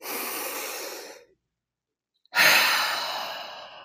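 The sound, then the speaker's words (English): A deep breath is drawn in through the nose, then let out through the mouth after a short pause. Each is a loud, airy rushing hiss that tapers off, with the exhale starting more strongly. “So let's take a few deep breaths together right now. Take a deep breath in through your nose and out through your mouth.”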